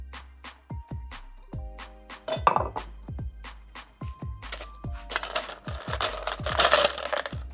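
Glass clinks as a drinking glass is set down to chill for a drink, with many sharp, bright clinks and ringing tones, some scraping and rattling between them.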